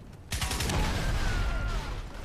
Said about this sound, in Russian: Взрывы, кстати, не совсем не никсгеновые, я бы так сказал. Да, очень хреново сделан эффект взрывов.